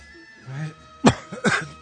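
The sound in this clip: A person coughing and clearing their throat: a low rasping grumble, then one sharp, loud cough followed by a rougher, drawn-out throat clear.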